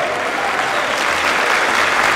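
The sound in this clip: Steady applause for the president of the Chamber of Deputies after he signs, a dense, continuous wash of many hands clapping at an even loudness throughout, with no voices standing out.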